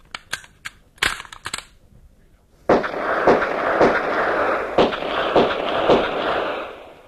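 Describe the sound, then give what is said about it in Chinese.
Six gunshots fired at a target crack out at a fairly even pace, each a sharp burst over a continuous noisy roar, preceded by a few quick dry clicks. “好枪法呀，真是名不虚传，六发子弹靶上只见两个洞。”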